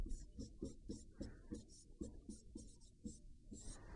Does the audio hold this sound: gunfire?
no